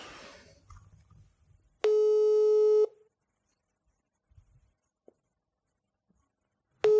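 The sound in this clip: Telephone line tone during an outgoing call: a loud, steady buzzing beep of about a second, then near silence with faint handling noises before the next tone starts at the end.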